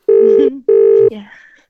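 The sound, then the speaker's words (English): Telephone dialing tones as a phone number is entered: two steady, evenly loud electronic beeps of equal length, separated by a short gap, followed by a faint, brief trailing sound. “We're dialing. Yeah. Hope he answers.”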